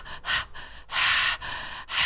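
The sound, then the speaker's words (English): Heavy breathing imitated by a voice: harsh, airy breaths repeating in a steady rhythm, with several loud exhalations alternating with quieter, shorter breaths and no words. “that's heavy breathing. That's the heavy breathing we heard.”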